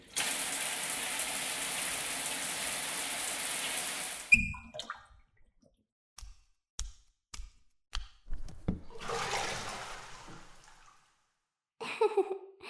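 Running water from a rinse before a bath, a steady loud hiss that cuts off abruptly, followed by a few scattered knocks and clatters and another brief stretch of splashing.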